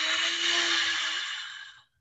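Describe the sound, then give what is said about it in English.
A deep ocean-style exhale drawn from the back of the throat with the mouth closed makes one soft, steady rushing breath like a wave, fading out after about two seconds. “Some people call it ocean breath because it sounds almost like a wave coming out.”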